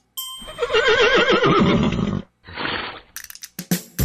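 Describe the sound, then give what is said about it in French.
A horse in a large stable lets out a loud, quavering whinny lasting about two seconds, followed by a short noisy burst and a few sharp clicks. “les chevaux vivent dans une grande écurie. On leur donne de la paille pour qu'ils se fassent un lit.”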